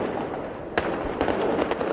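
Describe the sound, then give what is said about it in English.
Gunfire at a central Cairo mosque where anti-government protesters were sheltering: a few sharp, irregular cracks of shots ring out over a steady wash of background noise, with no clear talking. “That's the sound of gunfire at a central Cairo mosque where hundreds of anti-government protesters had taken refuge.”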